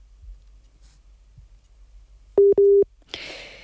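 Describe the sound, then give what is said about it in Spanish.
Busy tone after a phone call to Ghana cuts off: two short, steady, loud mid-pitched beeps after a near-silent stretch with faint clicks, then a burst of hissy line noise. “se ha interrumpido la comunicación. Vamos a intentar recuperar la llamada con Ousmane.”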